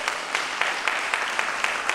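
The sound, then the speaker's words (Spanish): Audience applause fills the historic Auditorio de Radio Nacional Clásica at Maipú 555. It is a steady wash of clapping with a regular pulse of louder claps, roughly four per second. “muchísimas gracias por este momento con tu público que te está aplaudiendo aquí en el histórico Auditorio de Radio Nacional Clásica, aquí en Maipú 555.”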